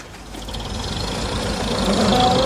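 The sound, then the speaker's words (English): A car engine rumbles low and steady as the car leaves, growing gradually louder over the short stretch. No talk. “the car is leaving.”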